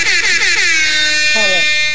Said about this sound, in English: Press 1 to start the call. The call will start at the beep.